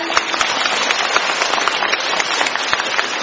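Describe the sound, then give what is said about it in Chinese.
Applause from an audience, a dense, continuous wash of many hands clapping at an even loudness with no pauses, heard alone throughout. “让我们用掌声感谢卢台长为我们看图”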